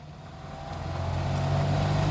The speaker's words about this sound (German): Adler, deutsche Wertarbeit. Mit dem Adler fahren sie am Vormittag die Küstenstraße entlang ostwärts.